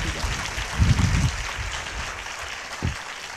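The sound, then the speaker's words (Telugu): A church audience claps loudly on request during a Telugu sermon. The applause is a steady, dense patter with a couple of low thumps standing out. “ఒకసారి చప్పట్లు కొడతారా గట్టిగా”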